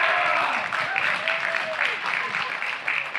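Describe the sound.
Home church members clapping, shouting and cheering during a morning service as a visiting team is welcomed, a steady wash of applause with voices calling out over it.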